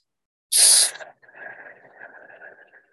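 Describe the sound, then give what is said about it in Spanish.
A slow exhale during guided meditation breathing opens with a loud, forceful hiss of air for about half a second, then eases into a long, softer, airy breath that trails off into silence. “Sostén y exhala Podrías exhalar de esta manera.”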